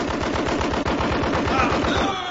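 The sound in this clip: Rapid automatic gunfire follows an order to fire: a loud, continuous stream of fast, evenly spaced shots that tapers slightly near the end.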